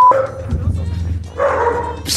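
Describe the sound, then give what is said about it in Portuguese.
A dog barks with a big, heavy voice. Two long, loud bursts of barking are separated by a quieter stretch. “Que é horrível ver esse cão aí, meu. Isso aí é um lobisomem. Olha o tamanho desse latido, rapaz.”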